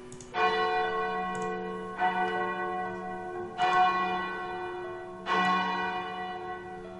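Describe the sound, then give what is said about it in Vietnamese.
A temple bell rings in the hall to signal the end of a martial contest. It is struck four times at slow, even intervals, and each stroke leaves a long, resonant hum that overlaps the next. “Cho đến khi hết canh thì trong điện mới vang lên tiếng chuông báo hiệu.”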